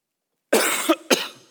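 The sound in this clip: Coughing from a tickle in the throat: a couple of harsh, breathy coughs, the first longer and rougher, the second a short sharp burst that trails off.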